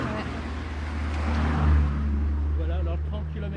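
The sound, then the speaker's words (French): Car traffic passing quickly on a road despite a 30 km/h limit sign during a rescue operation: a low engine and tyre rumble swells to a peak and fades, with voices talking over it. “Les voitures passent un peu vite, malgré le panneau qui limite la vitesse à 30 km/h pendant l'opération sauvetage.”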